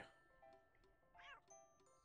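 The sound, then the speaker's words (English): A cartoonish cat meow from a slot machine video game, a short arching cry set among tinkling electronic chimes and tones, all very faint. “I like the meows, though.”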